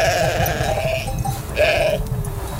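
A newborn lamb and a first-time ewe bleat in two loud, wavering calls over dense, steady background noise.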